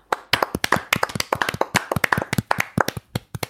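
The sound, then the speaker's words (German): Hands clapping in applause from what sounds like a small group: many crisp, loud claps in a quick, irregular flurry with no voices. “wir sind jetzt schon über mit dem ersten 100er drüber, kann man auch mal wieder applaudieren, oder?”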